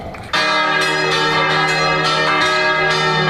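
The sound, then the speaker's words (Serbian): Church bells ring out for the opening of an arts festival in Kotor, a loud, sustained wash of overlapping metallic tones with rich ringing overtones that starts abruptly after a brief quieter moment. “zvona zvonite!”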